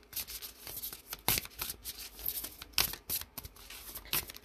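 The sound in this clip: Tarot cards flip out of the deck during shuffling: many faint, papery riffles and sharp snaps in an irregular rhythm, with no talking.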